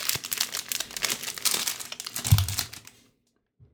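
Crinkling plastic wrapper of a pecan log candy, rustling and crackling steadily for about three seconds before stopping abruptly into near silence, with a soft low bump near the end of the crinkling.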